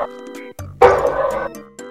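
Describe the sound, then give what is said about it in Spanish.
A dog barks in one loud, harsh burst lasting under a second, set between steady tonal sounds that play before and after it. “Puto perro.”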